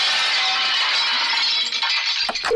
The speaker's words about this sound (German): Während unserer Fitnesswochen wird Ihr Fressen ab sofort auf dem Laufband ausgegeben. Sie hören es ja im Hintergrund.